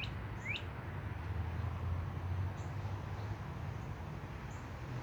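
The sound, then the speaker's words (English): Birds singing outdoors in Florida: a few quick, high chirps near the start, then only faint scattered calls over a steady low rumble. “And hear those birds? Oh, that's a cool bird.”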